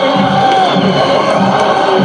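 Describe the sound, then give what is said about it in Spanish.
Boca Juniors fans cheer their players in the stadium: a dense, steady roar of crowd noise that fills the whole clip at a constant loud level without clear peaks. “el reconocimiento del público de Boca para sus jugadores, de los jugadores para el público”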